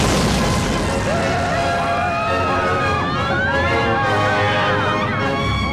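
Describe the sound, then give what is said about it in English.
Rocket boosters igniting at liftoff from a launch pad, a loud, unbroken roar with a wavering, siren-like whine running through it. “5, 4, 3, 2, 1. We have booster ignition.”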